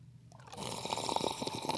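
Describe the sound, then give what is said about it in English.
Coffee being poured into a cup, a soft gurgling splash that begins after a brief quiet moment and carries on faintly to the end. “First, it's time to pour some coffee.”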